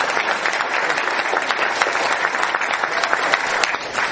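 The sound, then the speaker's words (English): Steady, dense applause from an audience honoring police department volunteers of the Neighborhood Watch Program and Citizens Patrol, a continuous wash of many hands clapping at even loudness throughout, with no voices standing out. “Let's have a little hand for those guys.”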